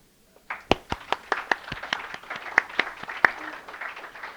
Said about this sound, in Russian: Ой, жидковато, жидковато хлопаете у нас, вот когда я пою песню, народ привстает.